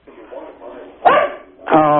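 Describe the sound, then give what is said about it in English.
A dog barks during a telephone call, giving a few sharp, loud barks in a thin, narrow-band sound, with a more drawn-out, tonal bark at the end. “I didn't want to talk to your dog. I want to talk to you. I'm sorry about the dog.”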